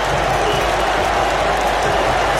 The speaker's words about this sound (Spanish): El público está alentando con todo Ecuador.